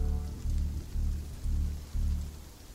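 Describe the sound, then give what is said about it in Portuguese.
A sudden heavy downpour of rain: a dense, steady rushing hiss that swells into loud surges at roughly regular intervals, with no voices. “Tá vindo chuva, tá vindo chuva.”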